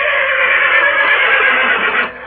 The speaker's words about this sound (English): The horses tore loose from their tracers and bolted,